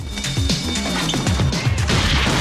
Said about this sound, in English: He throws the man to the floor.